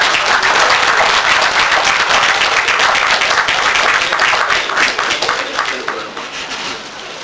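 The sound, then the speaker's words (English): Audience applause welcomes a speaker to the stage. The dense, loud clapping holds steady for several seconds, then thins and fades toward the end. “Please put your hands together and help us welcome Philip Emeagwali.”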